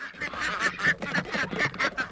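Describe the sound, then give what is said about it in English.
A flock of farm ducks, let out of their house at sunrise, quacks in a busy chorus of many overlapping nasal honking calls, fairly loud and continuous without pauses. “Morgan Gold heads to what he calls the quack house to let out his flock. Release the quackers!”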